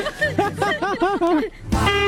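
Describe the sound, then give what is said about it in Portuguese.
A strange-sounding car horn lets out a run of wavering, warbling tones, then a steadier, brighter blast near the end, with background noise throughout. “Nossa, mas que buzina é essa, cara? Que buzina estranha, cara.”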